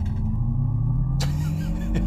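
Artificial driving sound of an electric car: a steady, synthetic low hum with droning tones over road rumble, holding fairly even throughout with a brief brighter burst partway through.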